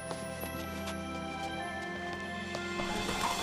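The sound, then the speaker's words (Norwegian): Horses being ridden out of a town, their hooves clip-clopping in a loose, regular rhythm over soft sustained music, the hoof strikes crisp but modest in level. “Og ikke lenge etter red Paulus og Silas ut av byen.”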